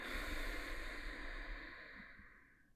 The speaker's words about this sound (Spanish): te invito a que tomemos unas respiraciones profundas. Inhala conmigo. Exhala despacio.